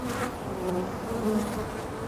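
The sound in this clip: Honeybees buzz at a busy hive as foragers return carrying orange pollen loads. A steady, dense drone holds throughout with no voices.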